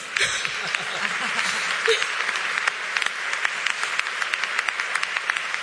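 Applause at an award ceremony: a steady wash of clapping with crisp individual claps standing out, continuing evenly for nearly six seconds.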